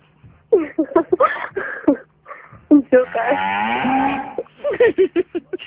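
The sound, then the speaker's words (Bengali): A cow gives one long, drawn-out moo, loud and resonant, between stretches of short voiced sounds before and after it. “এটা গরুর ডাক”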